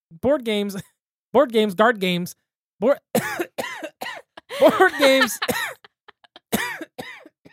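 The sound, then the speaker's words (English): A person with strep throat coughs and clears their throat several times, the bursts scattered among stretches of people talking. “going to have to pause this episode quite a bit to edit out some coughs”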